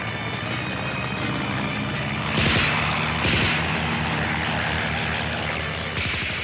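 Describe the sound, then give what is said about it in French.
Engines of World War I biplanes in flight, including a Nieuport fighter, form a steady, rough, buzzing drone throughout that swells briefly a few times. “décolle sur un Newport et tâche d'accrocher un aviatique”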